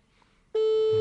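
A telephone ringback tone while calling: after half a second of near-silence, a loud, steady electronic tone switches on and holds at an unchanging pitch until the end.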